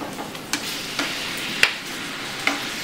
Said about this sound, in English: add in our cooked beef. Once it's nicely coated, get it off the gas. Give that a good mix till all the beef is coated nicely.